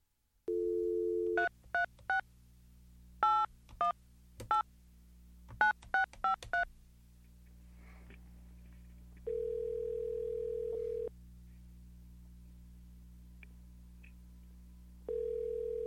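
A telephone plays a steady dial tone, then a rapid series of keypad dialing beeps in uneven bursts, followed by longer steady call tones. All of it is faint.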